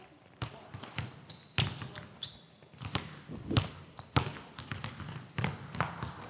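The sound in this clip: Basketballs bounce during a youth layup drill at a coaching clinic, with many sharp, irregular thumps from several balls overlapping at uneven intervals.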